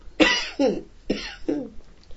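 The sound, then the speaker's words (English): Four dry coughs from a dry throat, in two close pairs. Each is a loud, harsh burst that quickly drops to a rasp, and the coughs come alone without talk. “Why am I coughing? I think it's just your throat's dry.”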